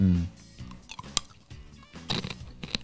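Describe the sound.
Crunchy chewing of peanuts wrapped in a hard shell coating, with a few sharp crackling bites breaking through softer, moist munching.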